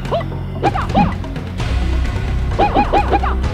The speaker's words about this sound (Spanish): La patada... La patada esa... De metralleta. Ok, eso dolió.